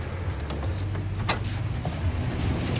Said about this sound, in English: Ennis goes to his pickup. He drives into Riverton, parks up opposite a bar, and gets out.